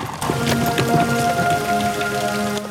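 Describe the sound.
Steady rain falling and pattering on surfaces, a dense continuous hiss of drops that holds at an even, moderate loudness throughout.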